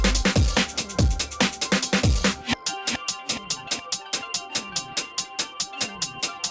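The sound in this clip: A rave music track plays with no vocals. It opens on heavy, booming bass kicks, then shifts into a crisp, fast and evenly spaced percussive pulse that drives steadily to the end.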